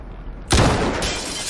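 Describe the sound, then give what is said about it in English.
A sniper team fires one sharp rifle shot that cracks out of a quiet background, its loud report trailing off into a long, ringing decay. “Team One, this is Command. Take your shot. Repeat. Take your shot.”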